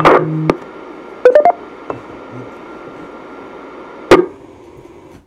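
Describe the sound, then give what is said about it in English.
DTMF tones sent to reset an amateur radio repeater: a few short bursts of paired beeping tones, with a sharper final burst near the end over faint steady hiss. “Let me reset the repeater.”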